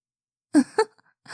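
A small, soft yawn, breathy and sighing, in two short bursts, with another faint breath starting at the end.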